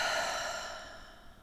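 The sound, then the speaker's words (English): A deep breath during a guided heart-focused exercise, heard as a soft, breathy exhale that fades steadily over about a second and a half. “Take a moment, put your hands over your heart right now. Take a deep breath in and out.”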